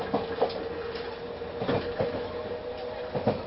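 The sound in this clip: A train runs on rails with a steady rumbling roar, broken by irregular clickety-clack wheel beats that recur through the stretch, with no voices.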